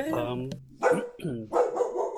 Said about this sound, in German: jetzt wird der Hund bellen, das ist auch genau. Passend zum Ende des Interviews.